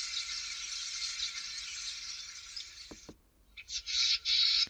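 Bird alarm calls given at the sight of a predator such as a sparrowhawk: a sustained high, buzzing trill for about three seconds, two sharp clicks, then a few loud, high-pitched pulsed calls.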